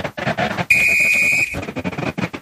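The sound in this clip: A referee blows a whistle at a football match between São Paulo and Cerro Porteño: a single shrill, steady blast lasting under a second, set between rougher noisy passages.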